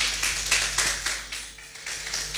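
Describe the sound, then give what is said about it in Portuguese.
Audience clapping at a live music performance, irregular bursts of many hands that swell and dip, moderately loud, with no voices. “Mais palmas, por favor.”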